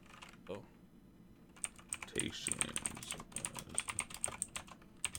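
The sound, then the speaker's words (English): Typing on a computer keyboard produces many sharp, uneven clicks that clatter in quick, busy bursts after a quieter opening and continue steadily to the end. “Sorry for my keyboard, people. I gotta get a quiet keyboard for the pod.”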